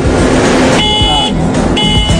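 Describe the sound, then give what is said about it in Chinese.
Loud warning alarm from an autonomous road roller that has detected people in front of it and stopped, sounding as two bright tonal bursts over a steady engine rumble. “当钟辉平和记者走到碾压机前时，设备立刻自动停下前行脚步，同时发出响亮的报警提示。”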